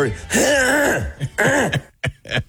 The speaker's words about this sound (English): So that's me doing a voice text, and I can't get through it because my throat. I have to clear my throat.